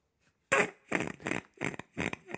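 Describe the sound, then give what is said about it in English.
A fart machine sound effect plays a slow, drawn-out fart as several sputtering, fairly loud bursts in a row, heard alone without talk. “Get the fart machine out. Yeah, just like a fart in the wind. Slow one.”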